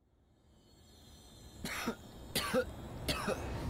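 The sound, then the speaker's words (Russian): A man coughs three times, rough and throaty, as he slowly comes back to consciousness. The bursts are spaced evenly over a quiet, faintly hissing background, and there is no talk. “закашлялся, медленно приходя в сознание.”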